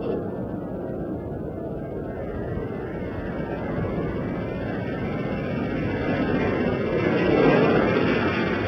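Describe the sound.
Space shuttle landing with its nose flared up: a steady, faint rushing roar of engine and air noise runs throughout and swells slightly near the end.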